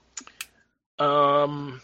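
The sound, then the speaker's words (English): Two quick computer mouse clicks sound close together, followed after a short pause by a longer, steady buzzing tone. “I'm gonna click on it.”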